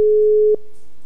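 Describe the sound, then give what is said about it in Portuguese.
Ringback tone of an outgoing telephone call: a single steady, loud, mid-pitched beep lasting about half a second, then cut off into quiet. “Vou dar mais 3 toques. Se não atender, aí eu vou desligar.”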